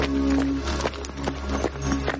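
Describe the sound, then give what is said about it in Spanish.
A horse-drawn cart arrives with steady clopping hooves and rumbling wheels over a sustained humming background. “Llega la carreta de Dyer y Abigail.”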